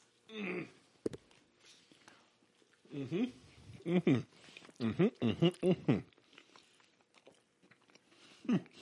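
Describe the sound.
Someone chews a seasoned beef taco: several irregular bursts of crunching, biting and wet chewing, fairly faint, separated by quiet pauses.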